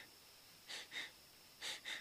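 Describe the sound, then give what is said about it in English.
Shallow chest breathing: four short, soft breaths fall in two quick pairs, each a brief airy puff, with no talk. “And you see how most of us breathe, even though a lot of you know meditate, we work out, we're actually shallow breathers.”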